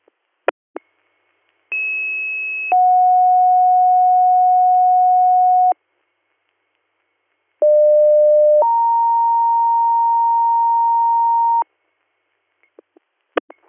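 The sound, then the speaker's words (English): Dispatch radio paging tones for an ambulance crew's second page. Two loud two-tone pages each pair a short steady tone with a longer one at a different pitch, separated by silence, with a few sharp clicks at the start and end. “Hop CMS, disregard, second page tones, your crew is complete.”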